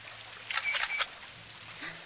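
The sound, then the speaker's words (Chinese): A camera takes a photo, a short burst of crisp mechanical shutter clicks lasting about half a second, alone over a faint, steady background hiss. “能帮我们拍一张照片吗？”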